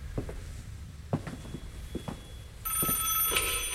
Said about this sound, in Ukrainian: Краще, може, хай собі й далі дзеленьке. Я б узяла. Мало хто це може бути. Ну, це або помилилися номером, або набирають навмання з похмілля. Добре, відповім.